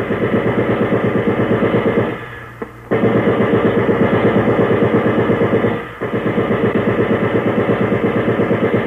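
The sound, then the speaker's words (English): Firing-squad gunfire during an execution: a long, loud, rapid rattle of shots in steady bursts, broken by two short pauses. “Achtung! Ready! Aim! Fire!”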